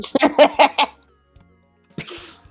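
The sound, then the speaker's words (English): Woobat, a Pokémon, sneezing in a video game: a quick run of short voiced chirps, a brief quiet pause, then a single breathy, noisy sneeze-like burst. “It sneezes. Woobat goes... Yeah. And shakes its little puffball self.”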